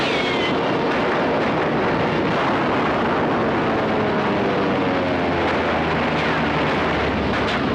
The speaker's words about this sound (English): Who's shooting? No one is. That's a recorded soundtrack from a movie studio right out of the sands of Iwo Jima.